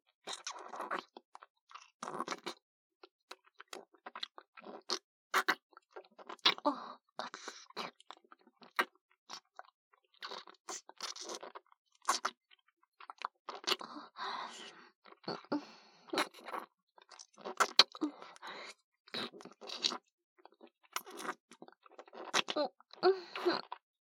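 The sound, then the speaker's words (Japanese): Wet kissing and mouth sounds: many brief, soft smacks and lip noises in an irregular stream, faint and close, with small breathy sounds between them. “さあ、キスをしましょう、ご主人様。”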